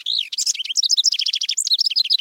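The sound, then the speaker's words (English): Wren song, a rapid string of high, bright chirps and trilled notes delivered loud and alone, with a quick, chattering rhythm that barely pauses between phrases. “The chatty wrens nest in cavities, including nest boxes.”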